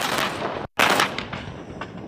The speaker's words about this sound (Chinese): 装甲突击分队率先开展直瞄火力打击。炮手实时测算环境影响，装定射击诸元，首轮炮弹全部精准命中靶标。